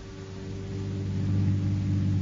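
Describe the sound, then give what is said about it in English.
A car driving on a road at night, heard as a steady low engine rumble that grows slightly louder over the short stretch, with no voices. “On that Sunday night, as they were driving back to Pasadena...”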